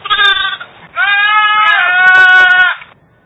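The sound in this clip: A goat that walks on two legs, naturally disabled in the other two, bleats loudly: a short bleat, then a long wavering one, with no talk.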